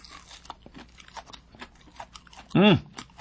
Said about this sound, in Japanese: かじります。